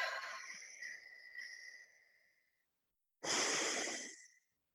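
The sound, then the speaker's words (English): Deep breaths taken during a guided relaxation exercise: a long, breathy exhale fades out slowly, then after a short silence a shorter, stronger breath follows. Both are faint, with no talking. “Take a few deep breaths.”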